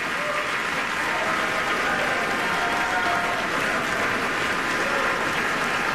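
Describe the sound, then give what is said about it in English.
Concert audience applauding as chamber musicians return to the stage to bow, a loud, sustained and even wash of clapping throughout with no break. “loudly for that beautiful performance. Such a warm reception for the audience, from the audience, as the musicians come back out on stage to take another bow.”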